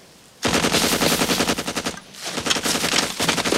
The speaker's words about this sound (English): Fuck, are you shooting at? Sarge says we should shoot him in the open. An animal runs from the spot where Hatcher shot.